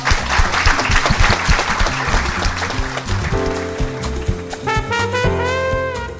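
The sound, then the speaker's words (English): An audience applauds at the end of a program with brisk, dense clapping, while music rises beneath it after a few seconds and continues with the fading applause. “you've been a wonderful audience, so please give yourselves a hand.”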